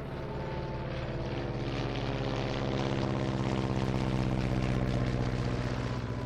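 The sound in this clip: Engine roar of a U-2 reconnaissance aircraft taking off: a loud, steady drone with layered humming tones that builds slightly in strength throughout.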